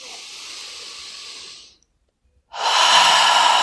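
Deep breathing in and out: a long, steady breath, a short silence, then a second breath that is louder and fuller. No talking over it.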